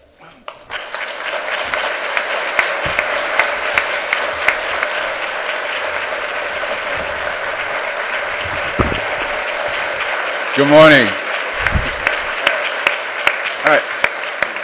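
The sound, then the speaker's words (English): Audience applause for a speaker at a public health lecture: dense, loud clapping rises quickly and continues steadily through the whole stretch, while a voice briefly speaks over it. “I thought the direction was for a standing ovation.”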